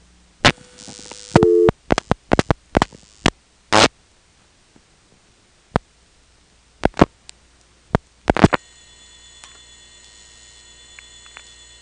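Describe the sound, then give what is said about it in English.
Telephone line sounds on a call dialed through a direct trunk to a non-working number in Hertford, North Carolina: sharp, irregular switching clicks with silent gaps, then a faint steady line tone settles in. “We will drop the director and then dial 92. That'll put us into the Hertford direct trunk. Then we'll dial 8111, which is a non-working number.”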